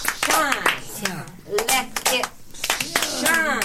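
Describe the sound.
Hands clap along to a song, with many crisp, regular claps sounding beneath loud singing voices.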